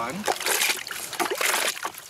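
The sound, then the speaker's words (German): Warm, soapy water sloshing in a main wash cycle: repeated splashy swishes and splatters in an irregular rhythm, moderately loud and continuous. “Ja, das ist jetzt der Hauptwaschgang. Das ist jetzt warmes Wasser mit Seife.”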